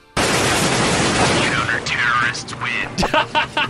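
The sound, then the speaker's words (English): Dense, loud gunfire roars from a shooting video game in which heavily armed SWAT teams battle armed criminals, a continuous crackling burst for about two seconds before it thins out and talking takes over. “this Colorado man is playing his favorite shooting game. Heavily armed SWAT teams battling armed criminals.”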